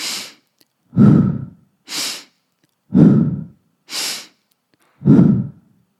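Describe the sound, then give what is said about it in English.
Forceful breathwork: three cycles of a sharp, hissing inhale through the nose, each followed by a deeper, breathy exhale out the mouth, in a steady alternating rhythm with no talk. “We're going to start with the halo active breath, a forceful inhale through the nose and exhale out the mouth.”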